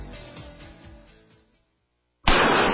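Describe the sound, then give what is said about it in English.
.44 Magnum gunshot fired into a high-tech hybrid Kevlar bulletproof vest: after a fading low rumble and a moment of silence, one sharp, loud, explosive blast bursts in. “That's the sound of a .44 Magnum and Traumamax, a high-tech hybrid Kevlar bulletproof vest”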